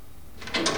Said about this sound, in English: pulls open the door